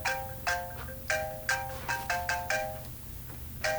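Phone alert for a new voicemail, a bright electronic chime pattern of many short tonal notes in an uneven, repeating rhythm, fairly soft, with no voices over it.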